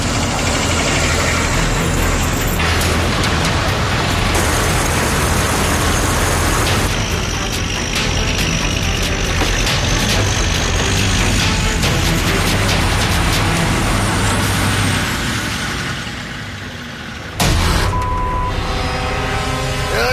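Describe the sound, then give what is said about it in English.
A heavy truck with broken tire chains grinds over a rugged, slick road, its loud engine droning steadily, easing off briefly near the end before surging back, with no voices. “But his busted chains are making traction tough over the rugged road.”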